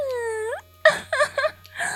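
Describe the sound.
A short, high, wailing cry whose pitch rises and breaks off, followed by a few brief choked vocal sounds.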